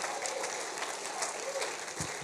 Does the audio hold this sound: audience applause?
yes

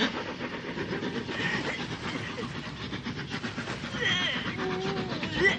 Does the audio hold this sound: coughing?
no

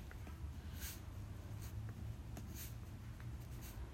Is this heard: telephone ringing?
no

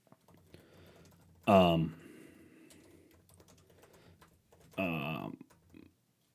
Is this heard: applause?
no

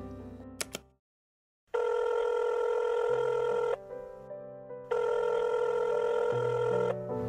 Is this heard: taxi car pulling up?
no

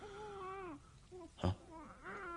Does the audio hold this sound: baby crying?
yes

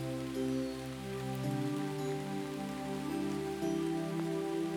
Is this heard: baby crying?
no

